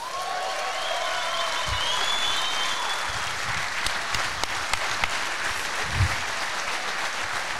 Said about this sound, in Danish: så giv en stor hånd til Lis Rytter!